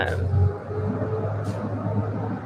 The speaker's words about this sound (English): that truck is loud.